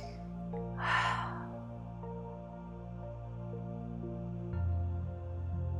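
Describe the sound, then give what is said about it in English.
One deep breath in, a short, airy rush near the start, rising over steady, low sustained tones that continue throughout. “Deep inhale.”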